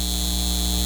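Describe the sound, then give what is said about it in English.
A data center hums with a steady electrical drone. Several tonal lines sit over a broad, even wash of noise, and the level stays constant throughout with no breaks. “This is the sound of a data center taking your water and driving up your utility bills.”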